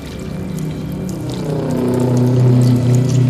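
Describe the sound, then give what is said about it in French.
Water rising and pouring in around a seated person, a steady churning rush over a low droning hum that swells a little louder through the second half. “Je suis assis dans l'eau. Ça monte vite, c'est pas plus mal.”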